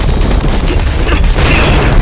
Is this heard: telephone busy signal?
no